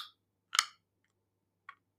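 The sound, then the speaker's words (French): Tongue clicks against the palate: a few short, sharp, quiet pops separated by silent gaps. “c'est de faire claquer sa langue comme ça.”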